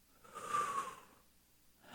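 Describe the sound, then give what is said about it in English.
A person takes a slow, deep breath that is soft and airy, swelling and then fading, and a second breath starts at the end. It is faint and heard alone, with no talking. “take a couple of deep breaths, which I'm doing right now”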